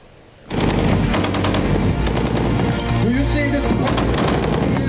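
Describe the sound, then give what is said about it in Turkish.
Rapid automatic cannon fire comes from the Tolga close-range air defense system during test firing in Konya. Many shots follow in quick succession, loud and nearly continuous throughout. “yine yakın hava savunma sistemi Tolga, Konya'daki test atışlarını da başarıyla gerçekleştirdi.”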